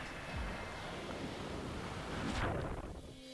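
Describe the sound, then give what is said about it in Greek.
Wind and water outdoors at Lake Garda, Italy, during a kite foiling championship. Steady, gusty wind buffets the microphone over a rushing wash, with a brief swell near the end and no voices. “Εδώ λοιπόν είμαστε στην λίμνη Γκάρντα, στην Ιταλία, για το παγκόσμιο πρωτάθλημα Kite Fouling, το Kite World Championship.”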